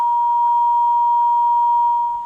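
A phone line's disconnect beep sounds as a caller drops off the line: one steady, loud, unbroken electronic tone that holds at a constant pitch for about two seconds before it tapers slightly at the end, with no talking.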